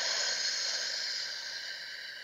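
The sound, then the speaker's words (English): A slow, deep breath as part of a guided breathing exercise: a smooth, airy hiss of moving air, fairly loud at first and gently fading, with no voice over it. “let's take a deep breath together, in through the nose, out through the mouth,”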